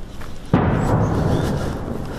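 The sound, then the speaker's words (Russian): Heavy artillery fire: a single sudden boom, followed by a sustained low rumble that slowly fades over the next second and a half. “Тяжелая артиллерия здесь не смолкает круглые сутки.”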